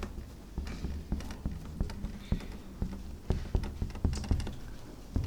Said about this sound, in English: let me mention something, and I'll try to write this on the board here